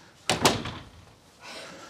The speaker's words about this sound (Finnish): Mä laitan tuon oven kiinni, niin näette paremmin.